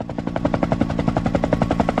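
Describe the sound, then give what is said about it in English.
A helicopter comes in to land. Its rotor beats out a rapid, steady chopping pulse, loud and even throughout, with a rumbling undertone and no voices. “a helicopter comes in to land”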